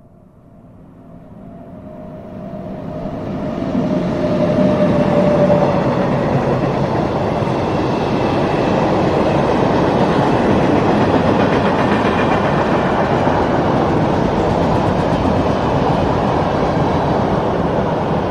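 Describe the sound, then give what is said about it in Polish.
A freight train passes with no noise barriers beside the track. Its loud, broad rumble swells over the first few seconds, then holds steady and heavy to the end, with no voices. “Dla porównania, ponownie przejeżdżający pociąg towarowy przy braku ekranów akustycznych.”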